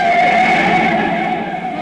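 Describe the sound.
Tires screech as a car traveling about 40 swerves and skids, nearly hitting a truck; the loud squeal holds at a steady pitch throughout, with no voices over it.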